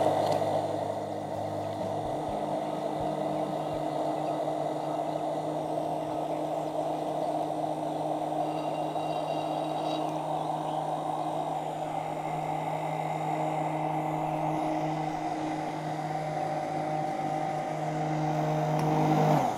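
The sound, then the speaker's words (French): Kitchen mixer running at low speed while coconut oil is drizzled in a thin stream to form an emulsion, a steady, even motor hum that continues unchanged, with no talk. “Donc, je branche, je commence à tourner à vitesse basse je verse tout doucement mon huile de coco en filet.”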